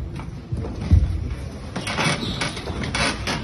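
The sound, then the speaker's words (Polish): Heavy church doors of the Basilica of the Holy Sepulchre in Jerusalem are shut as places of worship are closed: a dull low thump comes early, followed by scraping, rattling mechanical noises over a steady hiss. “Ale te obrazy i dźwięki zamykanych drzwi,”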